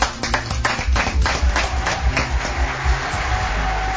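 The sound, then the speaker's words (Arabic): An audience applauds a director at an event, with many sharp hand claps in a loose, fairly fast rhythm that stays strong throughout and no talk over it. “تصفيق على المخرج هوني إعلام محترف مش عار بالليقة على الحاضرين نحب أحلى تصفيق”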